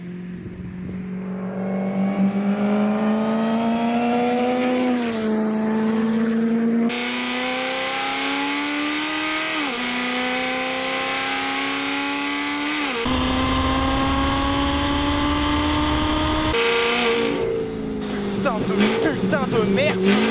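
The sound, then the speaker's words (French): A car engine revs hard in repeated pulls, its droning whine climbing in pitch and dropping abruptly at several gear changes, loud throughout while a man talks over it. “C'est merveilleux, je vais pouvoir commencer à monter un peu dans les tours.”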